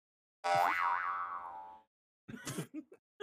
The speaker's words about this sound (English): I'm abstinent followed by boner noise.